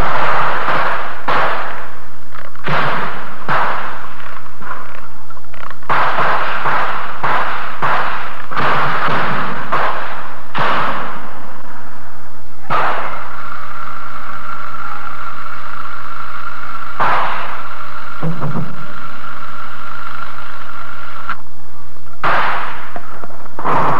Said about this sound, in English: That mortar hit about 50 feet from me.